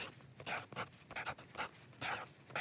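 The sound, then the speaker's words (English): Pen scratching on paper as notes are written by hand: a quick, irregular run of soft, scratchy strokes, fairly faint. “Let me write that down.”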